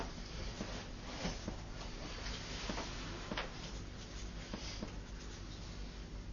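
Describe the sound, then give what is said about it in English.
A pen sketches oxen on paper: faint, soft scratching strokes with a few brief sharper scrapes over a steady low hiss, and no talk. “I'm not going to be able to draw these very well.”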